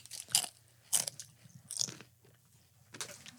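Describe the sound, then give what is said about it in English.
Crunching of cheese-flavored chips, likened to cheese Pringles, as someone bites and chews them: four sharp, crisp crunches spread over a few seconds, with quiet pauses between them and no talking. “I'm not a big fan of cheese chips. I wouldn't call that cheese. It's not cheese. This is like cheese Pringles.”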